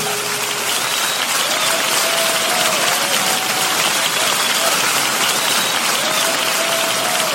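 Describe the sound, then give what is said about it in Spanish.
Loud hand clapping in praise during a Spanish-language religious broadcast: steady, dense clapping from many people with no pause, faint voices rising above it. “Dele fuertes palmas al Señor,”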